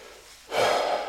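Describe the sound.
Nose blowing from someone with a head cold: after a quiet half-second, one loud, sustained, breathy blast begins and holds to the end, with no voices.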